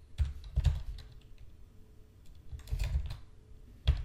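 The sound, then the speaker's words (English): Clicks of a computer keyboard as code is typed: a few quick bursts of keystrokes, each separated by short pauses. The typing is quiet and there is no talk over it. “Whoops. It would help if I could type. We're going to add app.useGoogleAuthentication.”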